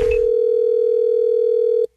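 A steady electronic telephone tone on a line for a prank call, holding one unchanging pitch for nearly two seconds before cutting off abruptly.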